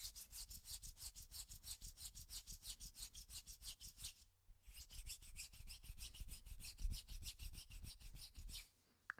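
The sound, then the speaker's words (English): Palms rubbed together in prayer position make a steady, rhythmic rasping swish of many quick back-and-forth strokes, broken by a brief pause midway, with no voices. “And put your hands in prayer position and rub them together. Rub the back of your hands.”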